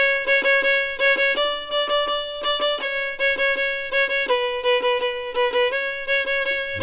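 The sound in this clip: A violin plays the first variation of a catchy tune, a brisk solo line of short, bright notes, some repeated and some stepping in pitch, with no talk.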